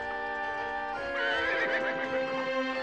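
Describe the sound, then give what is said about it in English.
A horse gives a long, high, shaking whinny as it is led away by a rider and trots off, with soft hoof clip-clop beneath the loud, quavering neigh and no voices. “he watches Ames ride by, leading Figure away.”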